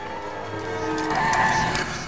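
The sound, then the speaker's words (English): A car swerving hard to avoid traffic as it pulls out into the road produces a continuous tire screech with a whining, tonal edge that swells in the middle and then eases off. “swerves desperately to avoid traffic, pulling out into the road.”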